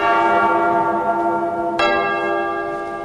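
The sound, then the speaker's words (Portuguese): A church bell rung by the sacristan: a steady, resonant ringing tone, then one fresh bright strike near the middle, loud and alone, its hum slowly decaying afterward. “Eu repito, toca o sino, sacristão.”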